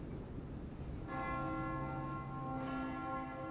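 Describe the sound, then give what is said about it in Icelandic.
Church bells ring at the church of Saint Nicholas in Oberndorf on a Sunday. Two strikes start a little over a second apart, and each leaves a sustained, layered metallic tone that hangs over a steady background hiss. “Músin stoppaði og leit upp þegar hún heyrði kirkjuklukkur hringja í kirkju heilags Nikulásar.”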